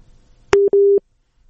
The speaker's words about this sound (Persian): اما حالا یک شنونده از طریق واتساپ فکر میکنم پیوستن با ما، بفرمایین رادیو آزادی است.